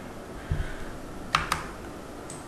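A few faint computer keyboard clicks as text is deleted and a product ID is pasted, with two crisp taps close together and soft low thumps just before them.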